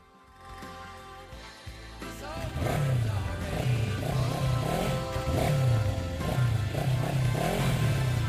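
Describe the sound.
Motorcycles accelerating and revving, loud engines surging up in pitch again and again over a continuous rumble.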